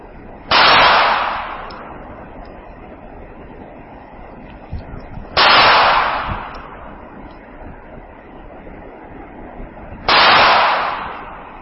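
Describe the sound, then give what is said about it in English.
Three loud gunshots from a Ruger LCP semi-automatic pistol, evenly spaced about five seconds apart, each a sharp crack trailing off into a long, rumbling decay. “What's that one? That is the Ruger Lightweight Compact Pistol, semi-auto.”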